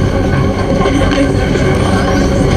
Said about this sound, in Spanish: Estoy en el tren. Voy hacia el sur de la ciudad. Muy bien. Estamos llegando a la estación de Cincinnati.